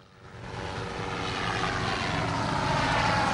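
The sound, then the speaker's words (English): A helicopter tears across the sky above open water, its broad engine and rotor roar swelling steadily louder over a few seconds, with no voices. “The helicopter tears across the sky.”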